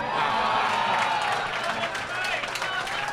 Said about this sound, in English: whenever you end a sentence with a movie title that he's in, the audience erupts like a volcano.